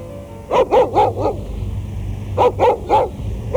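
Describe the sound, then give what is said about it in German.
A dog, apparently a stray from a poor quarter, barks in two quick bursts of four sharp, loud barks each, with a short pause between the groups. “Schon wieder ein Hund. Offenbar einer aus dem Armenviertel.”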